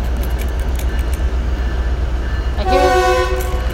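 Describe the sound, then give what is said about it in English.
A train rumbles in loudly and steadily as it approaches. Near the end a sustained, multi-toned horn blast rises above the noise. No one speaks. “I hear a train”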